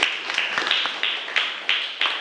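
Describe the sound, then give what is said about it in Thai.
Applause for a speaker: many sharp hand claps fall in a fairly steady rhythm, and each clap rings briefly before the next. “ปรบมือให้กับวริศด้วยค่ะ”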